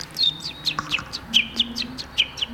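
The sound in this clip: A voice imitating a contented hen, giving many quick, high chirping notes in a steady, even rhythm at moderate loudness.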